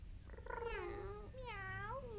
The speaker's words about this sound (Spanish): Discúlpeme, pero los gatos no pueden entrar aquí.